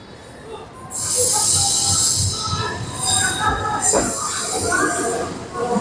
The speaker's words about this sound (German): Und da kommt auch schon unsere Bahn.